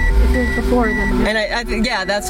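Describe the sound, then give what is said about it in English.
Loud truck passing, its deep engine rumble strongest at first and fading, while a person talks over it throughout. “Let this loud truck go by.”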